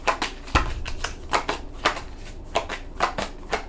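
Cards being shuffled in a deck until one card comes out: a rapid run of many crisp riffling bursts in an uneven rhythm, fairly loud and with no voices.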